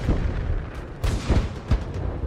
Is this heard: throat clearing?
no

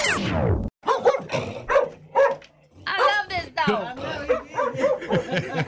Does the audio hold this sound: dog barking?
yes

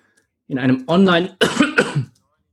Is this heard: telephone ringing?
no

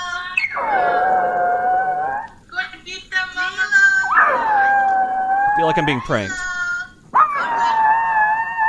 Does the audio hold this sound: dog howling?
yes

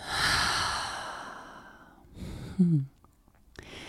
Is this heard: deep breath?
yes

